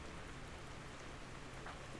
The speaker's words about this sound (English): Acid rain, sustained water drops, in a broken cycle.